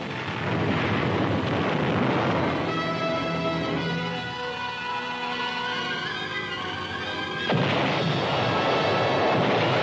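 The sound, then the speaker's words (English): Heavy preparatory artillery fire pounds an objective to soften it up: a loud, continuous rumbling roar with a sustained tonal whine through the middle, then the rumble continues alone. “First, heavy preparatory fire to soften up the objective.”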